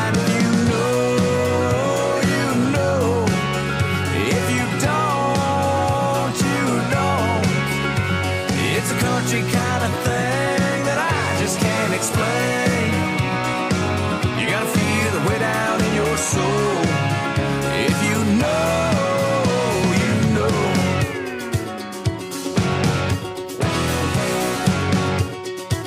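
A boot-stomping country song plays with a full band, loud and steady throughout, with a driving beat and dense guitar and vocal-range melody that keeps going without a break.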